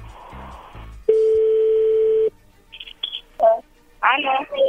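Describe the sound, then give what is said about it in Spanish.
Telephone dialing and ringing tone: a steady, loud tone lasting about a second, followed by a few short dialing beeps. Voices are heard talking before and after the tones. “vamos a llamarle a tu novia Verónica”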